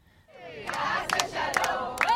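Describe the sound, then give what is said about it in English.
A crowd celebrates in Hostage Square in Tel Aviv with singing and drumming. Massed voices swell quickly into loud sustained chanting and shouting, and a few sharp percussive hits punch through the din. “The crowds here in Hostage Square have been celebrating. There's been singing, dancing, drumming, a real sense of joy and release.”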